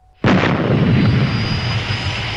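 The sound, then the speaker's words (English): A shrill jet aircraft scream over an island bursts in suddenly and loudly, then holds as a sustained, roaring rush of noise with a thin, high whine running through it. “a shrill jet scream shatters the silence over Muir Island”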